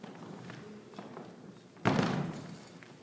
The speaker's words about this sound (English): Without spilling your coffee, I'm going to steal this chair.